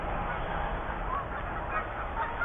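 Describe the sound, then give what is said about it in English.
A flock of about twelve geese honks as the birds take off from a cornfield, the calls faint and continuous over steady background noise. “There's another 12 geese”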